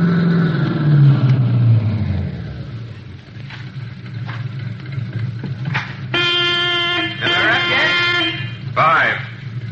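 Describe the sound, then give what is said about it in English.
Car engine runs at a filling-station stop in a police drama, a low steady rumble beneath voices talking, with a brief higher tonal sound near the end. “You better cut your motor.”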